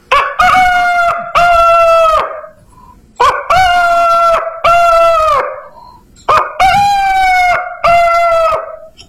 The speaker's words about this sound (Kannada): ಬೆಳಗ್ಗೆ ಏಳುವಾಗ ಒಂದು ಕೋಳಿ ಹುಂಜ ಈ ರೀತಿ ಕೂಗುತ್ತಿತ್ತು.